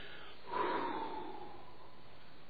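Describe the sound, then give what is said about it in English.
An audience breathes out together on cue as one short, soft whoosh of air. The whoosh fades quickly into quiet. “So let's all exhale together. Ready? One, two, three.”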